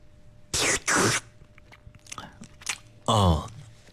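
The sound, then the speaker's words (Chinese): Someone eats and chews healthy vermicelli noodles made from home-milled grain, with a few loud slurping and biting bursts separated by quieter, soft chewing noises. “好，接下来我再来尝一尝粉条的口感啊。”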